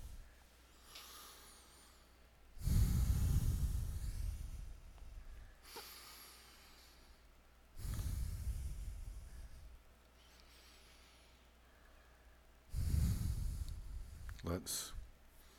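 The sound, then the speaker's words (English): Slow, deep breathing in and out during a guided seated exercise: three long, airy breaths swell and fade one after another, soft and hissing against a quiet background. “Take a deep breath. Deep breath in, deep breath out.”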